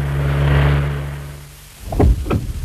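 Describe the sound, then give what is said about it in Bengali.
A car's engine hums steadily, then dies away as the car comes to a stop. Two short, heavy thumps follow close together. “Please please গাড়িটা আপনি থামান।”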